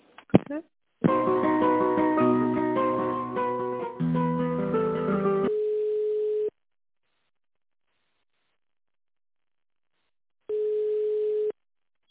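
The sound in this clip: An office phone line during a call transfer plays a few seconds of hold music. A steady single-pitch tone follows, sounding twice for about a second each time, with several seconds of silence between.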